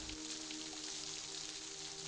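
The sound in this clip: Steady rain falling, a faint, even hiss that holds without pause from start to finish, with no distinct drops or voices standing out.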